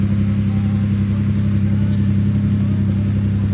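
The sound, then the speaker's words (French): A big BMW rally car with a sequential gearbox gives off a loud, steady, low engine drone that holds an even pitch throughout with no clear gear changes. “Allez, boîte séquentielle là, dans cette auto, c'est déjà une grosse BMW.”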